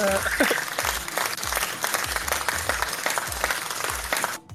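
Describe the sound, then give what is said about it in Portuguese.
Applause, a steady patter of many hands clapping, with a voice at the start and a regular low thumping beat running underneath until it cuts off. “Aplausos.”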